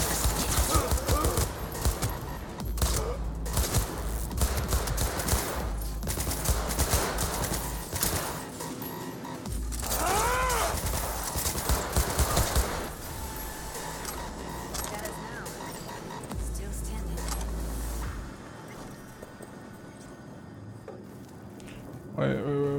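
Gunfire from a video game: dense, rapid bursts of shots that run almost without a break at a loud, steady level.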